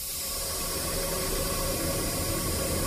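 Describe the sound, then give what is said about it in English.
Gas hissing as it vents into the air from an abandoned well drilled in the 1960s, beside a condensate tank; a steady, unbroken, even hiss with no pauses or other sounds. “The sound you hear is gas venting into the air from some underground rock formation.”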